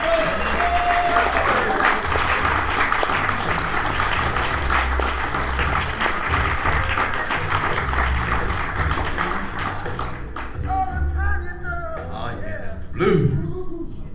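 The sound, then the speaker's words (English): An audience applauds to welcome a comedian to the stage at a comedy show, with dense, sustained clapping that thins slightly before a man's voice is heard near the end. “You guys, I need you to make him feel very welcome. Put your hands together for Steve Jenkins!”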